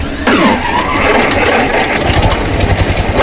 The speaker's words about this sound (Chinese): 你们谁把机器启动一下？我听听声音 啊。